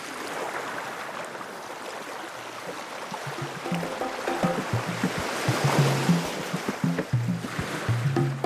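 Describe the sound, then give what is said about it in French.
Sea waves sending up a steady broad wash of surf that swells gradually, with soft music entering partway through and continuing beneath the water noise. “Si j'étais un son, je serais le bruit de la mer, apaisant mais puissant, toujours en mouvement.”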